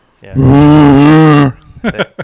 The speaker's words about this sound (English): the second person on the bike has the Bluetooth speaker and making those bear sounds going out.